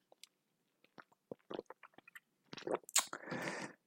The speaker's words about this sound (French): Allez, un petit coup d'eau et on y va.